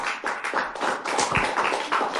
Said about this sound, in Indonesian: Kita kasih tepuk tangan untuk Aisyah.